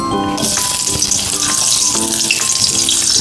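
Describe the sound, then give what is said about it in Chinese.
Scallion and ginger slices sizzle as they are stir-fried in hot oil in a heated pan, a loud, steady crackling hiss that runs throughout, with light knocks from the stirring. “开火热锅，倒入油，油热了，倒入葱姜片爆香”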